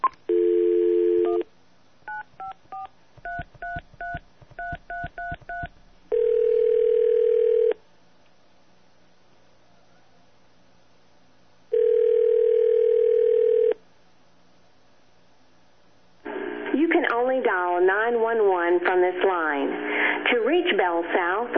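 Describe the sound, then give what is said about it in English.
Telephone line tones while a local number is dialed: a steady dial tone, then a quick run of touch-tone beeps, a few longer steady tones separated by silence, and finally a recorded voice on the line. “So I'm going to try to dial a local number.”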